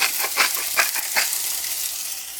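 Food fries in a pan with a bright, hissing sizzle, pulsing in a few rhythmic surges early on before settling into a steady crackle, with no talking.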